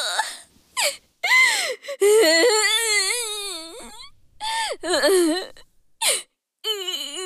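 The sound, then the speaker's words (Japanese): A girl's crying comes as high, wavering wails and sobbing bursts broken by short silent gasps, loud and uneven, with no words spoken. “あら、また泣いちゃった。”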